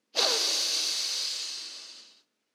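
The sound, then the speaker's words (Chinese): A single deep breath in during a meditation, a soft airy hiss that starts abruptly and fades slowly over about two seconds. “来，我们深深的吸气。”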